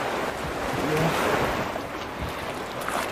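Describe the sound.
Fast-flowing water of the Dunajec river during a raft trip makes a steady, broad rushing that swells slightly early on and continues without a break.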